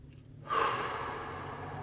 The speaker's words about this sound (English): pause and take a deep breath